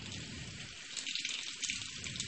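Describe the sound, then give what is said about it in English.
Hands being washed under a running tap: a faint, steady hiss of flowing water with light splashing, continuous and without talk. “Actually, while we're in here, I'll give my hand a quick wash.”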